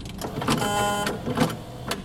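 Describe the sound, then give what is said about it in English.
A penny drops through an exhibition sound installation, producing a few sharp metallic clicks and clatters with a brief ringing tone in between, moderately loud and fairly dense. “And here comes the penny, which, you know, those are hard to find these days, so we didn't actually hear this sound right away at the beginning of the exhibition.”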